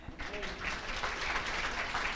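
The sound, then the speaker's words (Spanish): Applause at a church service as children are sent off with clapping: a dense, steady wash of many hands that starts abruptly and holds at an even level to the end, with a voice briefly audible near the start. “Y así con un aplauso los despedimos a ellos, que se vayan contentos y alegres.”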